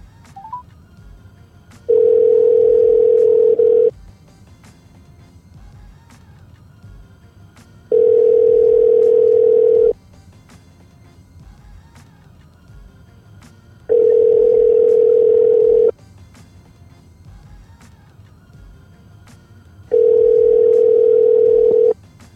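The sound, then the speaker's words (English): Telephone ringing tone heard while placing a call: four steady, even beeps, each about two seconds long, separated by regular gaps of roughly four seconds of near-silence, with no voices. “All right, let me get them on the call. Here we go. Hold on, let me call.”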